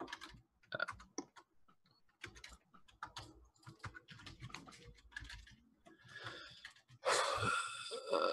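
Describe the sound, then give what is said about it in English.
Quiet typing on a computer keyboard while entering answers, with many irregular key clicks falling in short bursts and pauses. “If you hold down Shift, you can hit Enter. Okay. So I'm just writing all 3.”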